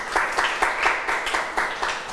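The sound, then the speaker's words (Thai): Applause from students clapping for themselves in a class: a steady patter of many quick, crisp hand claps at moderate loudness, with no talk over it. “เก่งมากๆปรบมือให้ตัวเองอีกหนึ่งครั้งค่ะ”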